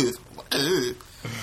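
Throat clearing: a rough rasp, then a short voiced hum that rises and falls in pitch, and a quieter rasp after it.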